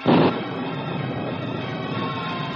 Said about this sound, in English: the crooks have set fire to the arsenal